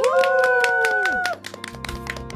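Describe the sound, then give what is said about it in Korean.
Rhythmic hand clapping from an audience at a Christian radio evangelism gathering, evenly spaced claps over a sustained tonal sound that cuts off partway. Voices follow as the claps continue. “믿음의 기업을 만나자. 믿기만 박수.”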